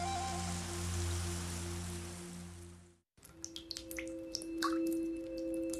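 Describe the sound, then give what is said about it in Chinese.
Water dripping from a tap: several sharp, brief drops fall at uneven intervals over a steady low tone, with a continuous humming texture in the first half before it cuts out. “一直在滴答的水龙头”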